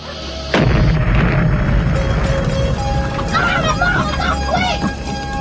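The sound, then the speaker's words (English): A burning box left on a house porch explodes with one sudden, loud blast, followed by several seconds of dense rumbling, crackling noise. “As the truck drives away, the box bursts into flame and finally explodes.”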